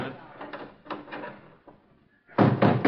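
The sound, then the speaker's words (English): Door being shut with a loud, heavy bang and rattle near the end, following quieter voices and soft shuffling. “Shut the door.”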